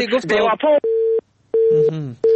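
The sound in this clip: Telephone disconnect tone after a call drops, steady mid-pitched beeps sounding in short repeated bursts that alternate with a person talking.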